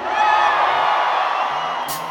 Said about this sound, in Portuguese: Levanta a mão pra sua casa e diga: Satanás! Na minha casa não! Porque eu sou blindado pelo sangue do Cordeiro. Quem é blindado, grita aí!